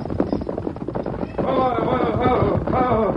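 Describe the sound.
Hooves of the Lone Ranger's horse Silver clatter in a quick clip-clop as the horse is brought to a halt, with a man's voice calling out over the hoofbeats.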